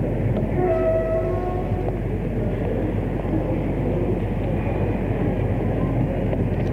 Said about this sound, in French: Puis, le train est arrivé à la gare de Lyon.